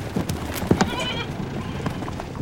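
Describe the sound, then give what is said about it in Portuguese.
Goats with variously coloured coats bleat, with one brief wavering cry heard among scattered knocks and rustling. “Muitos bodes de pelagem variada.”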